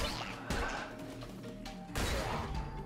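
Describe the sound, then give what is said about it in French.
A mushroom explodes when struck in the video game Cult of the Lamb: a loud, crunching smash of dense noise, followed by a second heavy burst partway through, over sustained tonal game sounds. “J'ai tapé, je sais pas, j'ai tapé un truc, ça a explosé. Champignon.”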